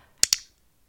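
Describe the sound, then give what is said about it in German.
An iClick clicker gives two sharp, bright clicks in quick succession, about a tenth of a second apart. Silence follows. “Nochmal im Vergleich zum iClick.”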